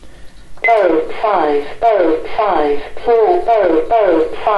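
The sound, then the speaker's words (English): Synthetic voice of a talking caller ID device on a bedside table reading out phone number digits, a loud, clear run of short, evenly spaced spoken syllables in a steady rhythm after a brief quiet start. “And here we have some gadgets as well. Another talking caller ID.”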